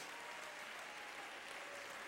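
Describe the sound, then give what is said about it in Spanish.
Congregation applauding the Lord during a church service: steady, dense clapping from many hands, faint and unbroken, with no talk over it. “Dale un aplauso al Señor, amado hermano.”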